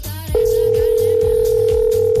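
A steady electronic telephone tone sounds while a listener is being called about a contest prize. After a brief moment the tone starts, then holds at one constant mid pitch, loud and unbroken, to the end.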